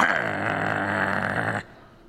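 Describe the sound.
A voice imitating a bulldog's growl: one sustained, rasping, low "arr" held for about a second and a half, then cutting off abruptly into near silence.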